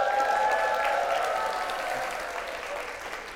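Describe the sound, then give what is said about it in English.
A church audience applauds and cheers during a morning worship service. The clapping is steady and fairly loud, with a sustained whistle-like tone held above it, and it eases slightly toward the end. “So can we let those know who are with us online that we love them by making some noise this morning?”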